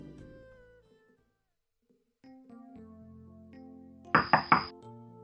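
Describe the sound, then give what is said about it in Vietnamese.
Three quick, soft knocks on a room door at night, crisp and close together, heard over a quiet, sustained musical backdrop. “Đêm đã khuya, cửa phòng Tả Chấn vang lên vài tiếng cộc cộc nhỏ.”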